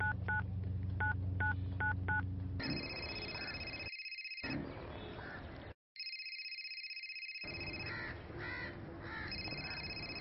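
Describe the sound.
Telephone keypad DTMF dialing: a few short dual-tone beeps in quick succession, followed by a steady electronic ringing tone with a brief dropout partway through.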